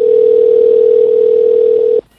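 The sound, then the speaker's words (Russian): A telephone dial tone sounds while a call is being placed: a single loud, steady tone held for about two seconds, then cut off abruptly. “А потом я все-таки снова дозвонился Гале на Бали”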